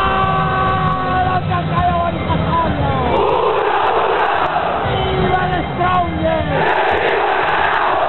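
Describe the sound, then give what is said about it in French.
Football supporters of The Strongest club roar their war cry, a large crowd shouting and chanting together in a loud, continuous, unbroken wall of voices. “Et ce cri de guerre, il est le symbole de la résistance. On résiste jusqu'au bout.”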